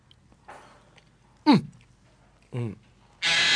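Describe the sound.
A bird squawks noisily, giving a few loud, abrupt calls. One is a sharp, harsh squawk that sweeps steeply downward in pitch, followed by a shorter rasping call and a burst of hissing noise.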